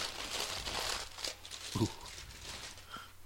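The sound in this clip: Crinkling and tearing as a small taped package is opened, a continuous papery rustle with a short louder crunch partway through.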